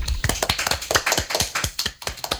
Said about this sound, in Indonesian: Tepuk tangan dulu untuk Molly.